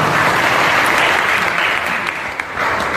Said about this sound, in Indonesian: tepuk tangan untuk Mas Sudaryono